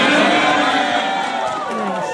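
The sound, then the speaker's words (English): A crowd cheers loudly in response to a remark by Donald Trump, a dense wash of raised voices that holds steady and then eases slightly toward the end. “And of course, everyone cheered.”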